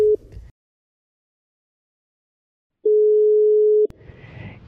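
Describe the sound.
Telephone line tone while placing a call: a steady mid-pitched tone cut short at the start, a long silence, then a second tone lasting about a second, followed by faint line noise.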